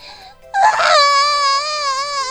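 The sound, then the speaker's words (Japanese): A baby cries: a soft whimper gives way to a loud, sustained wail held at a steady high pitch. “待て。どうして泣く？”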